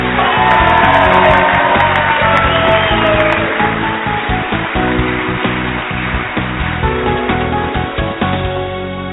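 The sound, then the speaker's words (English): A studio audience at a live talk show in Elmira, Oregon, cheers and whoops. The loud, continuous roar of shouts and hollers eases slightly toward the end. “Hey, keep it down, studio audience. Don't get too rowdy here.”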